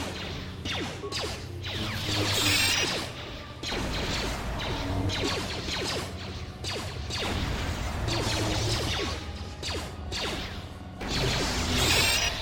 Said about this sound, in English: All right, I just tossed 3 iron grenades back to back.